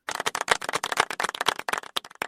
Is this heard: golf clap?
yes